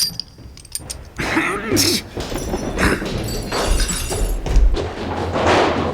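A person crashes through a window as glass shatters: loud, noisy bursts of breaking and thumping with mechanical rattling and scraping, the crashes rising and falling throughout.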